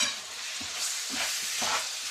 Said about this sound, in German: Jetzt brate ich das Hackfleisch ein bisschen an. Hat natürlich jetzt durch Curry und durch Paprika schon mal einen geilen Geruch auch.